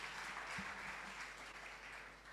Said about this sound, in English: Welcome him warmly with a round of applause.